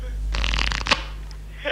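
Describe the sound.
Playing cards are riffle-shuffled for a game of Mariáš in one quick, fluttering burst lasting about half a second. It ends in a sharp snap over a low steady hum.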